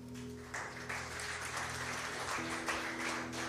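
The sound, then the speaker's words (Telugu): Congregation clapping together at a church service: a steady, dense patter of applause that begins just after the start and continues throughout, with sustained low musical tones beneath. “Team work చప్పట్లు కొట్టండి ఒకసారి”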